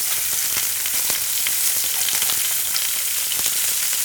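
Mackerel sizzles in a frying pan as a dense, steady high hiss scattered with sharp crackles and pops. No voices are heard.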